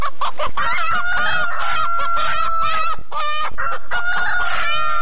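Chickens cluck busily as a rooster crows loudly over them. The flock is kept as village livestock. The calls overlap densely and continuously, with several crows rising above the steady clucking. No human voices are heard.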